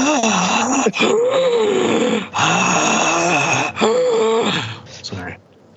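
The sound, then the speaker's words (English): Creepy heavy breathing with groaning, moaning tones: a few long, loud, rasping breaths separated by brief pauses, the last one trailing off quietly. “Now that is some creepy breathing.”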